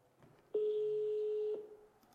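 A single steady ringback tone from an outgoing telephone call that goes unanswered, held for about one second on its own before falling quiet.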